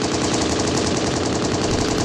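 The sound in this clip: Gunfire in a video game, a loud, dense, unbroken rattle of rapid automatic shots lasting the whole clip, with no talk over it.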